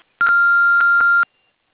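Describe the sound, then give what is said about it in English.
Answering machine beep: a single steady, fairly high electronic tone that holds at an even pitch for about a second, then stops cleanly into silence. “If you want to leave us a message, do so after the beep.”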